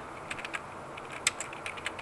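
A search being typed into a web browser on a computer keyboard, heard as light, irregular key clicks with a few sharper taps over a steady background hiss.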